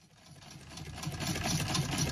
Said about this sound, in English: That's the sound of a very old but still very functional hand-cranked sewing machine.